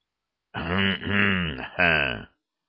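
A marshal's throaty, cough-like grunts: three voiced, rasping bursts in quick succession, fairly loud and heard on their own with no talk.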